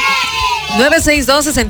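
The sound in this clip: People scream and yell in loud, high-pitched, wavering cries. Several voices overlap in a chaotic burst of shrieks and whoops.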